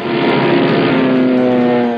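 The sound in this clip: Steady drone of a propeller airplane engine as a passenger boards, holding a continuous, even roar with layered humming tones throughout and no voices.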